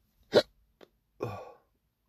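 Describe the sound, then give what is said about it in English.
Hiccups that come on suddenly: a sharp, loud hiccup, then a faint short one, then a longer throaty burst, with quiet gaps between them and no talk. “Oh man, I got the hiccups out of the blue.”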